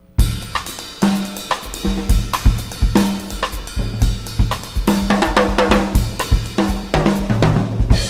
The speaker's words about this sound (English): but when he plays the Latin rhythm, and he does that a little faster than what we were just doing a moment ago in the Cuban style, it sounds like this.